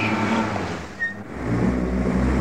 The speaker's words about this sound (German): Jetzt fährt er noch mit seinem Schnapskarrer über deinen Sack Trauben um.